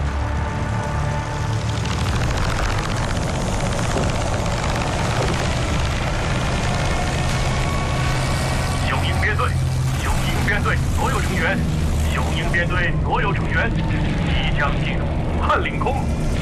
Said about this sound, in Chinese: 中国空军第3、第4、第5大队19架战斗机，加上苏联志愿队的45架战斗机，分别从汉口和孝感机场升空迎战。